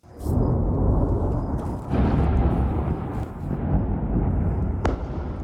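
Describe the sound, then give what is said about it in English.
Airstrike explosions strike southern Lebanon overnight as a loud, deep, continuous roar. The roar swells a few times and carries on with no speech. “There have been a series of new explosions in southern Lebanon overnight, following Saturday's escalation in Israeli strikes.”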